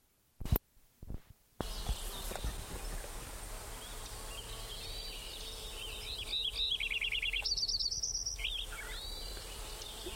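Sparrow song recorded in a summer meadow: a few short, buzzy trilled phrases over steady background hiss, after a few brief handling clicks at the start.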